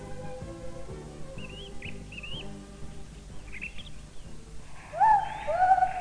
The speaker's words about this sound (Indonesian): Hei, lihat ke atas sahabatku. Seekor burung undan yang elok dan dapat bernyanyi.